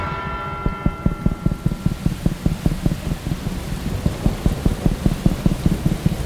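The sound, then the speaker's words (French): Heavy rain from a thunderstorm over Vaison-la-Romaine, a dense steady hiss with rapid, regular low thumps running through it from start to end, and no voices. “un nouvel orage s'abat sur Vaison-la-Romaine et la pluie reprend de plus belle.”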